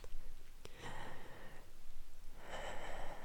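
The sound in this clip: Deep, slow breathing: two long, airy, hissing breaths, each lasting close to a second, with a brief click before the first and no talk over them.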